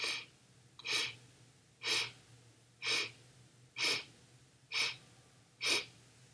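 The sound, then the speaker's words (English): Six slow, evenly spaced breaths through the nose, each a soft hissing rush of air separated by quiet pauses of roughly a second. “And again, 7 breaths in through the nose.”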